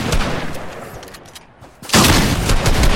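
Video game gunfire: loud, dense crackling bursts that thin out briefly and then return with a sharp, louder onset that carries on to the end.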